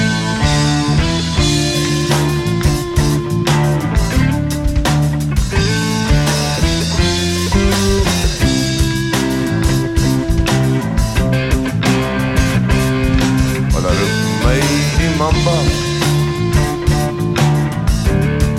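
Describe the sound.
A live rock song plays with lead guitar, vocals and rhythm guitar: a loud, dense, continuous band sound with a steady driving beat and sustained guitar chords throughout.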